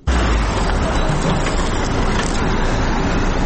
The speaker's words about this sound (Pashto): دا ژغونه د هغه موټرو دی کوم چې په طبي او غیر طبي وسایلو او د غراز په درملو باندې بار دي.